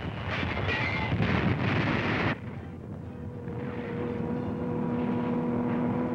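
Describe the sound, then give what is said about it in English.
A Nazi Stuka dive bomber attacks in wartime footage: a loud, broad roar drops abruptly after about two seconds to a lower engine drone carrying steady humming tones. “There's a Nazi dive bomber letting one go. Now American gunners scratch off a Stuka.”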